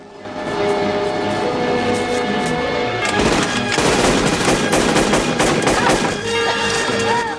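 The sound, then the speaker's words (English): Gunfire from a film gunfight inside a hotel: scattered shots at first, then dense, rapid bursts of automatic fire through the middle, easing toward the end, all over a sustained musical score. “Indoors, the gunfight continues.”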